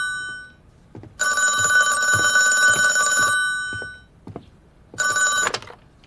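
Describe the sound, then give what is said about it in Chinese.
A telephone bell rings in two bursts: a long, loud metallic ring, then after a pause a short second ring, with faint knocks in the gaps. “电话。”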